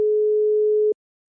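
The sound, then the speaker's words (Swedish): A steady telephone tone while a number is being dialed: a single, even, mid-pitched hum that holds for just under a second, then cuts off abruptly into silence. “Jag slår in numret.”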